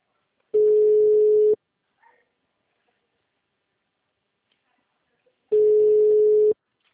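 Ringback tone of an outgoing telephone call: two steady, one-second, mid-pitched tones separated by a long silence, with nothing else heard between them.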